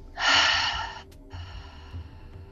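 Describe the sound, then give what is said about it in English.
A single slow exhale during a guided breathing exercise, a soft breathy hiss that swells quickly and trails off within about a second, then quiet low background. “And exhale down the back. Nice and slow. Belly, chest, and exhale.”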